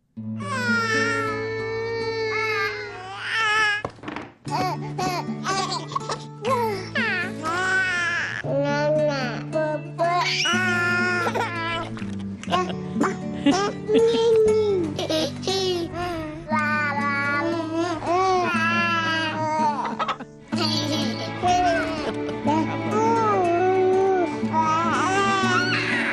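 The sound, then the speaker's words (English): Baby coos, cries and babbling edited together into a Beethoven melody, with many short pitched infant sounds following the tune in a continuous stream, broken only by a few brief gaps. “We call this Baby Symphony, and someone took together a bunch of baby coos and noises and made Beethoven.”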